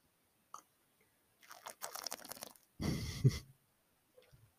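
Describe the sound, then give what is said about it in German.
Someone takes a quick sip of a drink: a few soft slurping clicks, then a short low gulp, faint and without speech. “Ich muss kurz einen Schluck trinken, Kinder.”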